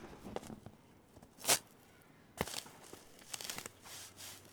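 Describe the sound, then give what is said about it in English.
Faint scraping, crunching and tearing as a shovel digs into tough soil held together by thick grass roots, with a few sharp ripping bursts between softer rustles and scuffs. “It's pretty tough digging. Oh yeah. We're only getting about 2 inches or so into the ground. Just the grass roots are fairly thick,”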